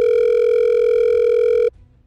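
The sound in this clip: A telephone tone sounds during a call, one steady mid-pitched tone held loud and unbroken for under two seconds before it cuts off abruptly into near silence.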